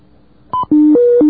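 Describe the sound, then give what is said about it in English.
Touch-tone beeps sound as a telephone is dialed to reach an operator. A short first tone is followed by three longer tones back to back at shifting pitches, loud and with no other sound. “That's a sound you hear all the time here. I mean, you used to just pick up the phone and dial.”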